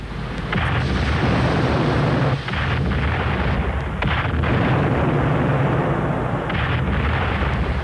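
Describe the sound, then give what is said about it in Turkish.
Ships' gunners fire cannons in a naval battle. Heavy, continuous booming and rumbling blend into a dense, loud roar throughout, with no clearly separate shots. “Cenklerim, topçularım, ateş!”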